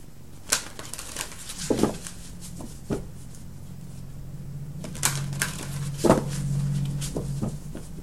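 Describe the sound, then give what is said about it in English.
Cards being drawn and handled: a few soft papery slaps, flicks and shuffles with scattered light clicks, quiet overall and without any talking. “Let me get some additional cards for you.”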